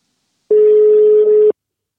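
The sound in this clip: A single steady telephone tone from a phone call being placed, lasting about one second alone, a plain mid-pitched beep with a sharp start and stop.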